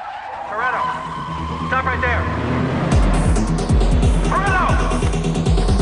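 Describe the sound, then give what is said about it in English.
A police car brakes suddenly and spins round on a street. Tires squeal in a few bursts over a rumbling engine, and a heavy, low engine roar takes over from about halfway. “He tries to keep a low profile as a police car drives past, but the cops brake suddenly and spin round to face him.”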